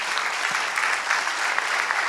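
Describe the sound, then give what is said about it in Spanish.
Sustained applause from a church audience during a Spanish-language service, a steady, even wash of many hands clapping at constant loudness throughout. “Dale el aplauso al Señor.”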